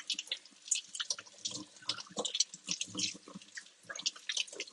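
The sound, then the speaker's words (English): Running tap water as someone washes their hands, with irregular splashes and drips that pulse in quick, uneven bursts at a faint level. “I'm washing my hands.”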